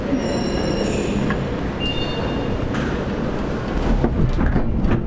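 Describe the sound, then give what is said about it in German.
A cable car gondola rides uphill in the Kleinwalsertal with a steady, loud mechanical rumble, overlaid by thin high-pitched squeals and a few faint clicks. “Darum bin ich jetzt gerade in der Kanzelwandbahn und fahre nach oben.”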